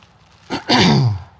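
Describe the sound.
A person clears their throat during a Bible talk: a short catch, then a longer, loud, rough rasp that fades, heard alone without speech.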